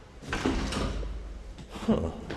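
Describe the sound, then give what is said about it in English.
Door sounds in a Shanghai apartment block: soft rustling and shuffling with a couple of sharper clunks, one early and one near the end, like a latch and a door being handled. “It's actually buried in a warren of apartment blocks here in Shanghai, and I'm going to try to find the right door.”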